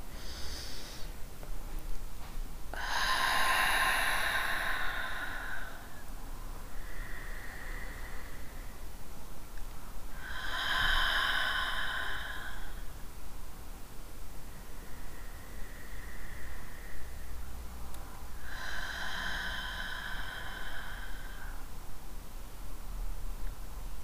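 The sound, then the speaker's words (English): Three slow, deep diaphragmatic breaths during a guided breathing exercise, evenly spaced. Each is a long, airy inhale followed by a softer exhale, quiet over a steady hiss. “I'd like to just take a moment to breathe. Let's take 3 deep breaths from deep within our diaphragm all the way up to our upper chakras.”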